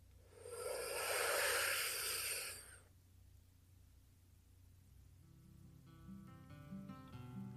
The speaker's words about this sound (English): So let's go ahead and take that deep breath in.